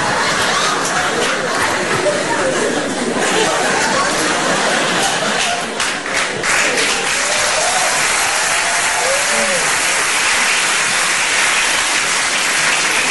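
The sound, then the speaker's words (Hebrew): Applause from an audience at a funeral: steady, dense clapping that fills the whole clip at an even, loud level. “אין צורך בכפיים”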